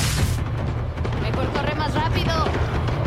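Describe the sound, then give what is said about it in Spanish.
An explosive plant bursts open in someone's face amid tall grass and rising smoke, a broad noisy blast at the start that fades into rough rumbling while a voice talks over it. “Se detiene ante una planta que explota en su cara.”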